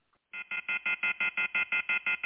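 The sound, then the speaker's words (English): A telephone left off the hook beeps in a rapid, steady train of loud, identical electronic tones, evenly spaced and unchanging in pitch. “Would someone please hang that phone up?”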